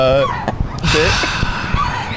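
Seagulls call with a few harsh, honking cries that rise above a steady, noisy background.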